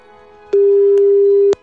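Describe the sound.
The ringing tone of an outgoing telephone call: one loud, steady, mid-pitched tone lasting about a second, with a few faint clicks around it and no voices.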